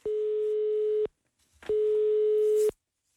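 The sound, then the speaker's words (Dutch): Telephone ringing tone sounds as a call is placed to a person in Grotebroek: two steady, even-pitched electronic tones, each lasting about a second, separated by a short silent gap. “dus vandaag gaan we bellen de bondscoaches in Grotebroek.”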